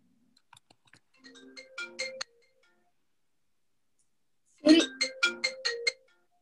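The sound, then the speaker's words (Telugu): A mobile phone rings with a melodic ringtone: two bursts of bright, chiming tones separated by a pause of a couple of seconds, moderately loud and with no talk. “నా phone మోగుతోంది ఒకసారి తెచ్చివ్వబా”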